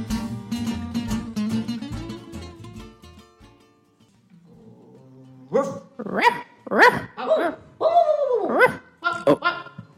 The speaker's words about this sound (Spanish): ¿Oyes? ¿Oyes ese montón de perritos que ladran? Escucha con atención. ¿Oyes el que está ladrando ahora?